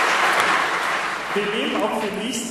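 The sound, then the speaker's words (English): Audience applause at a contest where entries, including a beard category, were submitted: a steady, dense wash of clapping throughout, with a voice starting to speak over it partway through. “Thanks for that. Round of applause.”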